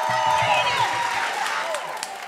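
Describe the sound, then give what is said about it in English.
Audience cheering and applauding for a performer coming onstage, a dense wash of clapping with shouts and whoops from the crowd, fading a little toward the end. “Y'all, make some noise for Kevin Allison.”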